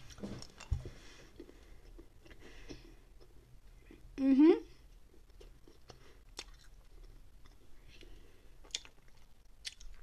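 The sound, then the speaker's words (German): Someone chews a piece of chewing gum, making soft, wet mouth clicks and smacks scattered irregularly throughout, with one brief louder vocal sound midway. “Andere eine ist ein Bonbon, andere ist das Kau ein Kaugummi. Das erstmal nehme ich das Kaugummi.”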